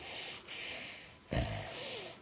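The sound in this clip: A voice imitates laboured, congested breathing from being sick: quiet, raspy breaths in a few slow cycles, with a throaty, snorting catch partway through.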